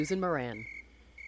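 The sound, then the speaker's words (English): A steady, high-pitched chorus of crickets, cicadas and katydids keeps droning through the whole moment. A person speaks briefly over the start of it, and the insect buzz then carries on alone. “The chorus of crickets, cicadas, katydids, many other sound-making insects, I believe, is now in full swing.”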